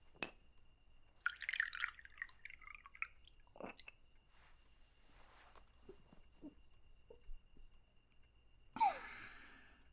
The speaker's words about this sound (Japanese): お休み前の最後の一杯じゃ。おチョコはさっき使ったのでよいか。